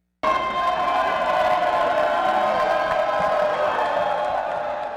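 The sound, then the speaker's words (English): Massed voices of around 120 sports coaches in matching red shirts marching up a city boulevard in afternoon sun: a loud, steady din of cheering and chanting that starts abruptly and holds evenly to the end. “That's the sound of almost 120 coaches walking up Wilshire Boulevard in the bright afternoon sun.”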